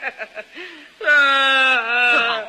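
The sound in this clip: A person cries and whimpers: a few short, choked sobbing bursts, then a long, high, wavering wail that carries to the end.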